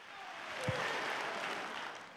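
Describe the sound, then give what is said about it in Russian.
Faint, steady hand clapping from an audience during a church worship service, a soft continuous patter with one low thump near the start. “Воздайте хвалу Богу. Хлопайте в ладоши.”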